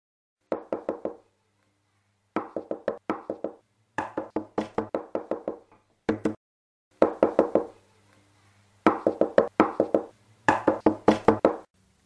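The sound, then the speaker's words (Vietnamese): Urgent, forceful knocking on a door, struck in about seven bursts of rapid, loud knocks separated by short silent pauses. “có tiếng đập cửa khá dập dồn và mạnh mẽ.”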